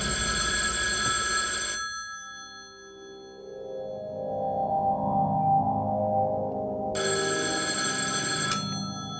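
A telephone rings for an incoming call, with two bright ringing bursts separated by a longer gap of softer, lower tones.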